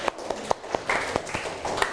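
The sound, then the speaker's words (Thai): A class of students clapping hands for a classmate: scattered, uneven claps, fairly faint, with soft voices in the background. “ปรบมือเพื่อนหน่อยเร็วนะคะ”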